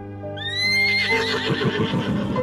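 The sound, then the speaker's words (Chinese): A large adult horse, head raised, neighs in a loud, drawn-out call with bright harmonics. The pitch climbs sharply at the start, then wavers in a shaky, pulsing tremble that lasts to the end, with no voices. “大马仰起头嘶叫起来，像是在呼喊”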